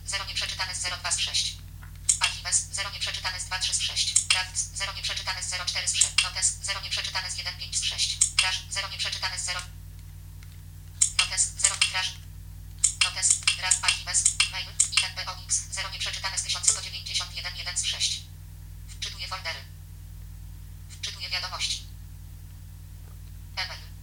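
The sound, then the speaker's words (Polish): A synthesized phone voice announces that folders and then messages are loading for a Gmail account, in short bursts of speech separated by pauses over a steady low hum. “specjalnie tutaj się nie odzywałem, żeby Państwo usłyszeli ten komunikat, wczytuję foldery, wczytuję wiadomości.”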